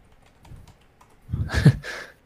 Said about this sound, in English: Hang on, let me type it in.